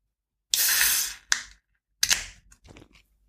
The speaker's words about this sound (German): dann werden wir ein alkoholfreies Bier aufmachen.